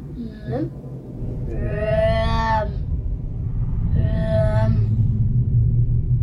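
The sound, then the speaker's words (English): Low, continuous roar of a fireplace fire fanned through tubes to recreate a furnace, with two drawn-out moaning tones rising over the steady rumble. “The suggestion, that is the sound of the furnaces working overtime to eviscerate evidence of the Nazis' crimes.”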